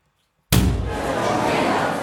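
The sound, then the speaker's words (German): A door suddenly bursts open with a single sharp slam that breaks a moment of silence. A steady wash of loud noise carries on after the impact. “Da schlägt auf einmal die Tür auf.”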